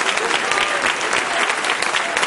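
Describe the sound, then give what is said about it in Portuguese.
Loud, sustained applause from a church audience during an evening service, a dense and steady wash of many hands clapping at once that holds its level throughout with no talking over it. “Vamos receber ela com palmas, bem forte para o Senhor!”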